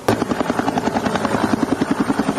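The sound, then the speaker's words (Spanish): A Air Force helicopter arrives at the scene of a serious accident at a national rally, its rotor giving a loud, rapid, steady chopping pulse over a constant engine whine. “Así llegaba el helicóptero de la Fuerza Aérea y se desplegaban los equipos médicos en el lugar”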